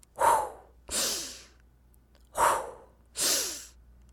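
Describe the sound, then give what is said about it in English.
Deep breathing voiced for an angry dragon character: four slow, breathy breaths alternating in and out, each lasting about half a second, separated by short pauses, with no talk. “Fireball quickly took a deep breath. Breathe out. Breathe in.”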